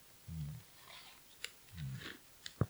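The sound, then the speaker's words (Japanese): Karamucho chips eaten straight from the bag make faint crunching and chewing, with a few soft, muffled crunches and several brief, sharp clicks between them. “カラムーチョはね、手で食べるの嫌いなんですよ。大きい袋でもなんでも。で俺はこうやってその袋が直接”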